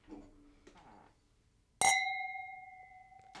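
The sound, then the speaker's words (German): A single bright clink of glasses raised in a toast over apple wine, struck once and left ringing in a clear, sustained tone that slowly fades. “Deswegen würde ich sagen, wir stoßen an.”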